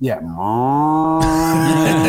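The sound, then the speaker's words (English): A human voice imitates a car engine's mooing drone, a well-insulated engine's hum: one loud, sustained low tone with rich harmonics, dipping briefly at the start and then holding steady for about two seconds. “There's the engine impression.”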